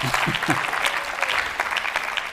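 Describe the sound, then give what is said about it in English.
A church audience gives a hand clap of praise: brisk, continuous clapping from many people that holds at a fairly even level from start to finish. “can we just give like a hand clap of praise?”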